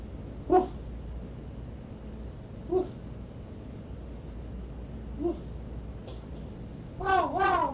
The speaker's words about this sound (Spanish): Perro, perro. Estos son los de los perros.